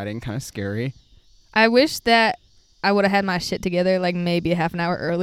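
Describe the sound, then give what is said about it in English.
Cicadas chirp outdoors at dusk at the edge of a pool, a thin, steady, high-pitched buzz running faintly beneath continuous talk. “There's no way you can't hear the cicadas right now.”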